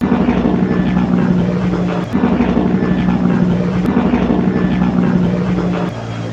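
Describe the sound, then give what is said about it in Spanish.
An airplane in flight, on a trip to Colombia, gives a loud, steady roar, a dense, unbroken engine drone that barely changes over the whole stretch, with no voices. “Vamos a para el avión, vamos a montarnos al avión y vamos a arrancar a Colombia. Vamos para el avión ya.”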